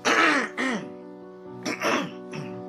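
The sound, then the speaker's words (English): Someone clears their throat in two rough bouts, each made of two or three rasping bursts with a short pause between them. A faint steady tone sits underneath. “sorry, I had a little bit of Nathan's cyst juice in my throat.”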